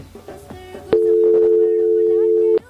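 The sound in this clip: A telephone line tone as a call is placed: one loud, steady, even-pitched tone holds for under two seconds, then cuts off abruptly. Brief talk comes just before it.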